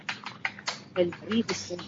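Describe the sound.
Computer keyboard typing picked up by an open microphone on a call, a rapid run of light clicks under someone talking.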